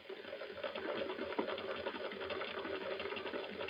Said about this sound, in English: I built this pump especially for it. There's the pump switch, Ed. Here? Yeah. Turn it on and watch the ammeter.